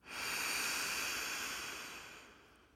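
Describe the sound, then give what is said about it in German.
Faint, soft hiss of air drawn in through the left nostril while the right is held closed, a steady breathy rush that swells quickly and then slowly fades, with no voices. “Schließe zuerst dein rechtes Nasenloch und atme durch dein linke Nasenloch ein.”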